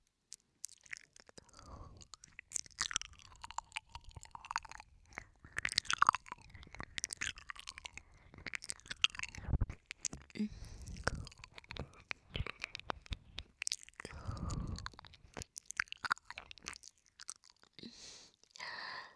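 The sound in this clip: Wet mouth sounds of simulated ear eating in an ASMR roleplay: many irregular close smacks, licks and soft crunchy clicks, loud and intimate, with no clear talk.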